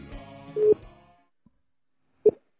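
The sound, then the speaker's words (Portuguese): A telephone being dialed to place a call, heard as two short electronic beeps roughly one and a half seconds apart. The first beep comes over a fading murmur of background sound and the second stands alone. “Beleza, vamos ligar pro Toru, hein?”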